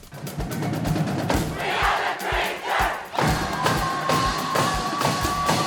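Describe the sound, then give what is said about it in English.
Traverse City West high school student section, the Bleacher Creatures, cheering and chanting loudly at a Battle of the Fans competition. Massed voices rise and fall in rhythmic surges over a steady beat of regular low thumps. “That was the Traverse City West Bleacher Creatures and that is your 2022 Battle of the Fans champion.”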